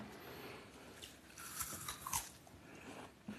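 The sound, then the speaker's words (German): Faint crunchy bite into an Ontario apple, an old sour variety, with a short cluster of crisp cracks followed by soft chewing. “Wollen Sie mal einen probieren? Gerne. Ein Ontario.”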